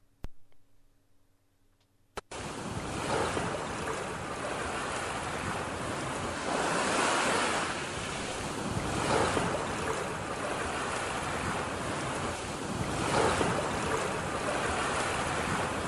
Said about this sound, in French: Mais il y a un jour qui m'a dit qu'il faut faire attention parce que sur cette plage, la mer peut être dangereuse. Il y a pas mal de courant.